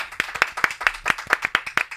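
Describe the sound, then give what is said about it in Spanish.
Applause from an audience welcoming a guest onto a Spanish-language comedy show. Many quick, evenly paced claps keep a brisk, steady rhythm, fairly loud and with no talking over them. “Así que un aplauso muy grande para Samantha Villar.”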